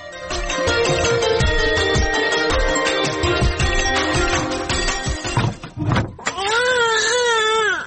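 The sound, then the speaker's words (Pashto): A boy cries in wavering, sobbing wails near the end, after a long stretch of loud, dense sound. “هلته هلک ژاړي او ته دلته په غوجله کې ناسته یې.”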